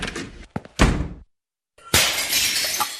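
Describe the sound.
A plate breaking: a few sharp crashes and a shattering burst, then abrupt silence before another loud, noisy burst of clatter.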